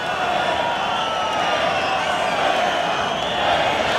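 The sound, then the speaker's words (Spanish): Bullfight crowd in the arena protesting angrily: a dense, continuous roar of many voices that stays loud and fairly even from start to finish. “El público está muy enfadado y protestando las condiciones de la lidia de este toro.”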